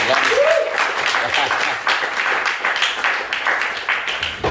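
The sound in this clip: A crowd applauds a special guest, a fitness author, at a live event. Dense, steady clapping runs loudly and evenly through the whole clip without a break.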